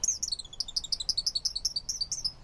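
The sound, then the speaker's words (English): Male song sparrows sing from a woody thicket along a bank: a fast, even run of bright, high chirping notes repeats steadily throughout, with no voices. “From a woody thicket along the bank, male song sparrows belt out their chorus all day long.”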